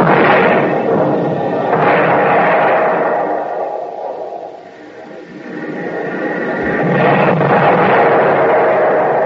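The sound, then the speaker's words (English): Artillery shells land and explode during wartime shelling, giving loud, deep rolling booms that blend into a continuous rumble, swelling, fading briefly in the middle, then building again. “Every time a shell lands, they get closer. Wonder what they're using. We ain't got stuff that big in the army.”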